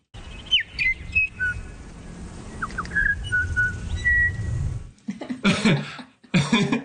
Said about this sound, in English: just some examples of how musical bellbird song can be. This is on Burgess Island, where the females all sing something that's vaguely related to happy birthday kind of sound.